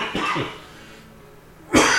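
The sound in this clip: A person coughs, a rough burst at the start and, after a short lull, another loud harsh cough at the end.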